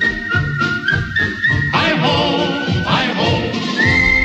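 A person whistles along in a radio studio, a high, steady melodic line sliding between notes and continuing loudly throughout.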